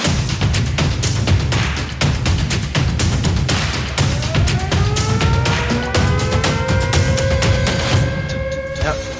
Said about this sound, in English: And without further ado, we will get into our long-awaited CyHawk preview. And then boom, insert intro music right here.